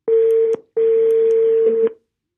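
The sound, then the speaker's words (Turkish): Telephone tones play as a call is dialed: two loud, steady beeps at the same pitch, a short one and then a longer one, separated by a brief silence. “Bugünkü konuğum Melike. Arıyorum hemen.”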